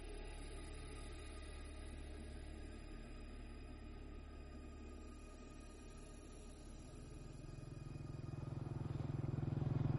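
A motorbike carries two riders along a foggy rural road in Vietnam after midnight. Its low engine rumble stays faint and steady, then grows louder near the end.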